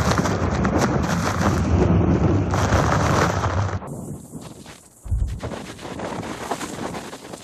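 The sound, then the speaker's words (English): Strong storm winds batter the microphone in a loud, rushing roar that eases off briefly, then hits again in a sudden fresh gust and keeps blowing. “It's like you'll have moments of a punch of wind, and then it'll stop, and then we get another punch of it.”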